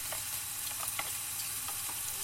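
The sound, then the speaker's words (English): Double cream is stirred into a sizzling pan sauce, giving a steady, dense frying hiss with soft scattered clicks and scrapes from the stirring, at an even volume throughout. “I'm going to stir that until the cream incorporates, and it's going to thicken the sauce.”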